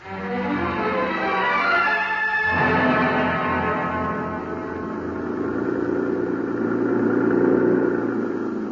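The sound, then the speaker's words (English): A jeep's engine roars as it is driven fast through traffic in the Mexican capital, a radio-drama effect: a loud, continuous motor drone that swells and eases in long waves, with no voices over it. “The jeep driver was a young Mexican boy who'd been brought up in the best and wildest chauffeuring traditions of the capital. He knew only one way to drive, with both accelerator and horn wide open.”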